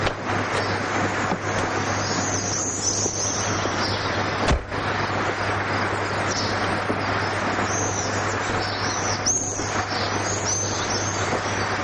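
A car driving along a mountain road gives a steady, loud rush of road and engine noise with a constant low hum and a single brief thump partway through.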